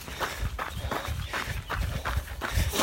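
Footsteps of people walking on together in Austria, a steady, even rhythm of many crunchy, scuffing steps that stay at a fairly constant loudness throughout.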